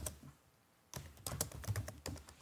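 Someone types on a computer keyboard: after a short quiet pause comes a fast, uneven run of many crisp keystrokes, fairly soft overall.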